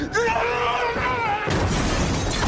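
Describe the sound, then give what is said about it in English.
A table is flipped over and crashes, a loud, noisy smash that runs to the end just after a voice shouts. “Flip table!”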